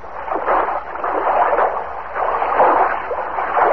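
Feet wade and splash through water in a steady, unbroken sloshing wash that swells and eases slightly over a few seconds, with no voices.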